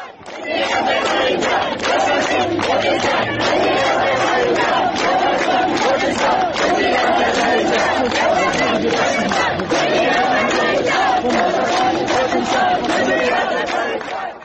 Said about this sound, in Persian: گزارش ها نشون میده که دانشجویان علوم پزشکی کردستان شعارهایی از جمله یا شاسین کردستان، بژی آذربایجان سر دادن. بشنویم صدای دانشجویان کردستان.